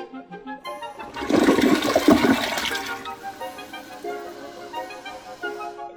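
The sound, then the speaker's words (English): A toilet somewhere in the city flushes with a sudden surging rush of water that peaks loudly for over a second, then tapers into softer trickling and gurgling as the bowl refills. “Here's the sound of the flush.”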